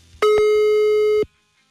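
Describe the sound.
Telephone busy tone on an unanswered call: a single sustained electronic beep lasting about a second, steady in pitch and loud, with a sharp onset and cutoff and quiet line noise around it.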